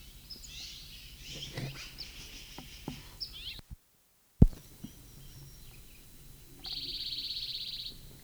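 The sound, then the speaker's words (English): Faint, scattered bird chirps over a quiet outdoor background. A brief dropout to silence is followed by a steady, high, insect-like buzz near the end. “apparently same bird.”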